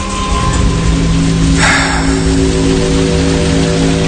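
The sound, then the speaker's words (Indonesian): Heavy rain falling close to midnight, a steady, dense hiss with a low hum beneath it and a brief swell partway through. “Duh, hujan kayak gini sih lama. Mana udah hampir tengah malam lagi.”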